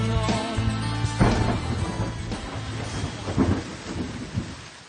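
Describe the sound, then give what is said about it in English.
Steady rain falls as a dense, continuous hiss with a low rumble beneath, and no talking. “Started again. Rain coming down.”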